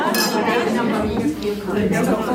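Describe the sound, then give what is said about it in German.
Glasses clinking at an aperitif reception closing a club meeting in rural Lucerne: light, repeated chinks of glassware over a steady hubbub of crowd chatter. “bevor es zum Apero geht, wo das Treffen vom Club auf der Luzerner Landschaft abschließt.”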